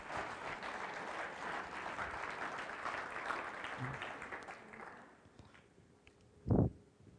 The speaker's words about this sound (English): But I would like you to put your hands together, and we'll do some introductions later. But for the Spains and the Drakes, why don't you welcome them as they come to the stage for our panel discussion tonight?